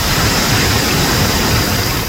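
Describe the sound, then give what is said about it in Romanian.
Heavy rainstorm with hail pours down in a dense, steady roar of noise, loud and unbroken from start to finish. “iar s-a rupt norii. Altă repriză și cu piatră și cu de toate.”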